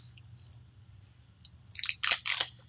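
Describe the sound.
Crunching of black peppercorns being crushed by hand: a faint click, then a run of sharp, gritty crunches that bunch together and grow louder in the last second.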